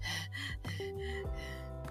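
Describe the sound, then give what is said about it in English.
Someone demonstrates shallow, short, sharp breathing in and out through the mouth, with a few quick, quiet gasping inhales and exhales over a steady low tonal background. “it tends to be quite shallow, short, sharp breathing, in and out through the mouth, not much air getting into the lungs. It can sound like this.”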